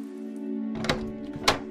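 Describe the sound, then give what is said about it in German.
A door with a cool brass handle is carefully opened: two soft clunks from the handle and latch stand out over a low, steady hum. “Du gehst auf die Tür zu, legst deine Hand auf den kühlen Messinggriff und öffnest sie vorsichtig.”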